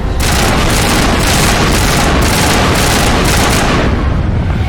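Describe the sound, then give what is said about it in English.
Automatic gunfire in a video game battle set in a garden below a council chamber, loud and relentless, with rapid shots and heavy booms blending into a continuous barrage for nearly five seconds. “That's right, I can auto-shoot.”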